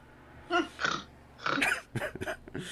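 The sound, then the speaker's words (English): Snorting comes in a few short, faint nasal and throaty bursts separated by brief pauses, the later ones quicker and closer together. “snort.”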